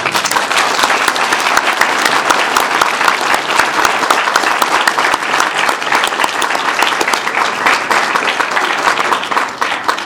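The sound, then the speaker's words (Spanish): Sustained audience applause at a panel event on radio in Bolivia, dense and loud clapping that holds steady without a break for about ten seconds. “Quiero pedir un aplauso para Donato Ay.”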